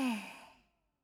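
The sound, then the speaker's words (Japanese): A single breath out during a slow guided breathing exercise: a soft voiced sigh that starts with a brief hum and quickly fades to silence in under a second. “吸って、吐いて、”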